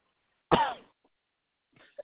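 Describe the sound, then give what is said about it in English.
A single harsh, loud cough from a person with a recurring allergy cough, followed by silence and a couple of faint, brief sounds near the end. “I have a cough that I get it's not contagious, it's allergy.”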